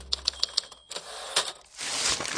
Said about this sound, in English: I can't seem to type these leases anymore.